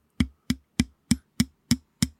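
Someone slaps a microphone by hand, producing seven sharp, evenly spaced thuds in a quick steady rhythm, each decaying fast, with nothing else audible between them.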